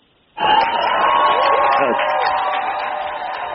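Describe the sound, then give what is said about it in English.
Audience applause welcoming a speaker from the Consumer Federation of America, bursting in suddenly and then holding as a loud, even clatter with voices mixed in. “Please give a warm welcome to the Consumer Federation of America's representative, Mr. Michael DeLong.”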